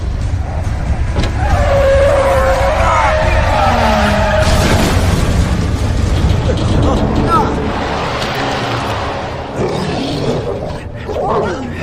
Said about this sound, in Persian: ترمز کن